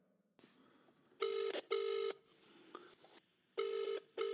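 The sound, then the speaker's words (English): Ringback tone of an outgoing phone call: two pairs of short, buzzing double rings separated by a pause, the last pair cut off at the end, over a quiet background. “Let's give him a call then, shall we? Sure, yeah, give him a call.”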